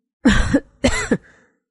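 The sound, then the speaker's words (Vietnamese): Two loud, deliberate fake coughs from a man, a doctor pretending to cough with his hand raised to his mouth. The two sharp, forceful bursts are separated by a short gap, with no talk. “bác sĩ Thành đã đưa tay lên miệng, giả bộ ho lớn”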